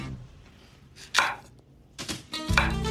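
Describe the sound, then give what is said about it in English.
A knife roughly chops a small cauliflower whose stem has been cut off, making a few sharp, crunchy strokes in uneven bursts. The later strokes come closer together over a faint background, and no one speaks. “So I've cut off the stem of one small cauliflower. Now I'm just gonna chop it up roughly.”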